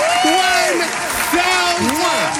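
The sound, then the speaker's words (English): Applause from an audience rolls on steadily throughout, dense and loud, while a voice carries on over the top of it. “You get an applause and a kiss.”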